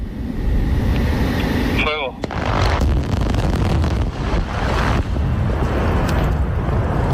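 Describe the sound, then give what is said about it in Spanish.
A mine blasting explosion at Río Tinto: a brief whistle-like tone, then a heavy, loud roaring rumble that carries on for several seconds. “esto es otra voladura en Río Tinto, hace ya algún tiempo, pero que suena así.”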